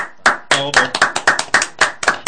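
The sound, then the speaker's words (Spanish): Clapping greets a special guest on a radio show: a steady, rhythmic run of sharp, loud claps about a quarter second apart, continuing throughout. “El tremendo invitado, así que por favor los aplausos para Germán Po.”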